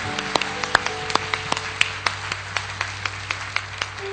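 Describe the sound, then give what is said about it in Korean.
A church audience claps in praise to God, steady rhythmic hand claps in a regular beat, many crisp strikes evenly spaced over a sustained low tone. “주님께 영광의 박수를 드립니다.”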